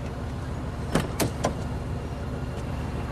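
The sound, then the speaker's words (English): A cab pulls up to a waiting passenger with a low, steady engine rumble. A few sharp mechanical clicks stand out briefly in the middle. “hails a cab. It flashes its lights and drives up to him.”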